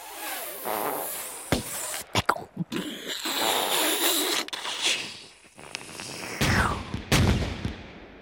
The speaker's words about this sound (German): Zur selben Zeit, fast sofort, dröhnt eine Salve aus dem Unterholz.